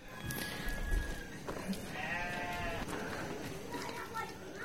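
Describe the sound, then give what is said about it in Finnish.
Goats bleating in a village alley: a wavering, nasal bleat stands out midway through a steady bed of outdoor noise, with faint voices in the background. “Kujalla juoksee vuohia.”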